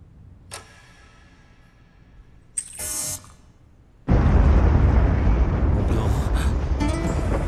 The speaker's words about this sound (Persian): داره زلزله میاد.